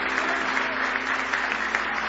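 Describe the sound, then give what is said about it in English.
A church audience claps in praise during a service, a dense, steady round of applause that holds at an even level without a break. “Give the Lord a big hand clap of praise tonight if you love Him.”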